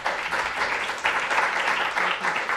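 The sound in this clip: An audience applauds the evening's speaker after a talk, with dense, steady clapping that holds fairly loud throughout.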